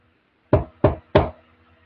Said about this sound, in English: there is a knock at the door of the bar.